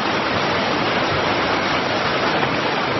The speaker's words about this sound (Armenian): Նկարահանման պահին Արփիլեջից ջուրը Շիրակի մարզի մի քանի տասնյակ համայնքների ոռոգման ջրով ապահովող ջրամբար էր